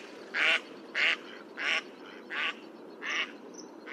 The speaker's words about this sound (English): let's just YouTube what a mallard sounds like so I can get the cadence. Okay. So this is, I guess, what a mallard sounds like.